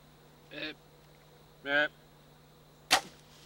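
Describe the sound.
An arrow shot from a bow at a buck during an early-season hunt: a single sharp snap of the release near the end, after two short buzzy bursts, all over a quiet, steady background hum.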